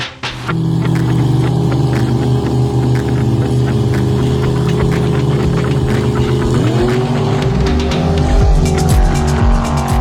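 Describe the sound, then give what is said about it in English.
Car engine from a motorsport-style recording runs loud and continuous, its steady harmonic drone shifting in pitch partway through as the car changes speed, with no voices. “Those car sounds were sent in by Cameron.”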